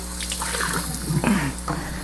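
Water runs from a tap to dampen an oke before rice goes in, leaving it moist rather than soaked. The soft, continuous splashing and trickling is fairly faint and stays at a steady level.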